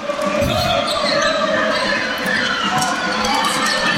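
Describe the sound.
A basketball is dribbled on the court during a game, its repeated bounces ringing out under dense crowd noise and an ongoing commentator's voice.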